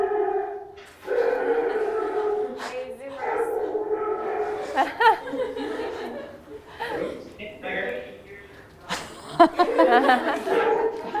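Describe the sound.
A dog barks and yips in a few short bursts, mixed in with ongoing talk and chuckling laughter.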